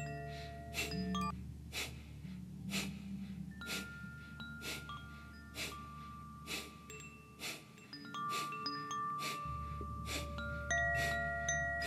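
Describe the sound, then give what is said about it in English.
Rhythmic, sharp nasal exhales during a pranayama breathing exercise, as a steady series of short, forceful puffs roughly once per second. Soft, sustained tones hum faintly underneath. “Now we're going to take a three-quarter of a breath in. Sharp exhale.”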